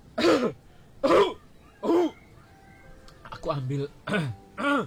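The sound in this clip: A man with an itchy throat clears it and coughs in a string of several short, voiced, gruff bursts, evenly spaced with a brief cluster near the end.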